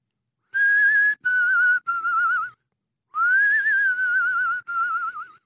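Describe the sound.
Someone whistles a nursery rhyme tune, clear and alone: three short phrases, a pause, then two more, the longer one gently wavering up and down in pitch.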